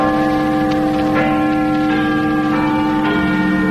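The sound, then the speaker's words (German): Big Ben in London strikes eight o'clock. Several deep, resonant bell strokes ring out at a steady pace, and each new stroke sounds over the lingering hum of the one before. “Guten Abend, hier ist der Londoner Rundfunk. Big Ben hat 8 Uhr geschlagen.”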